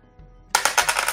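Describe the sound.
Dice rolling on a table give a sudden burst of rapid, bright clattering clicks that bounce and patter on for a moment after a quiet start.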